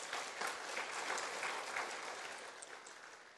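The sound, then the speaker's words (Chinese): Audience applause at a morning forum in a Buddhist centre: dense, steady clapping from many hands that eases slightly toward the end. “圆普法师，圆普法师，把他鼓掌，鼓掌”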